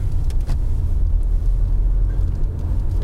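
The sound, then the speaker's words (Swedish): Steady low rumble of a car's engine and tyres as it drives straight through a roundabout, a continuous loud drone with no talk over it. “Så, kör, kör du bara rätt fram genom rondellen här.”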